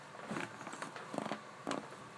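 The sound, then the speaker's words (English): A chair with bungee cord seating creaks as someone shifts on it, giving a few faint, stretchy squeaks and strains over a quiet background. “And I have a new chair that is like bungee cord type thingies. So if I move and you hear it, it sounds like this.”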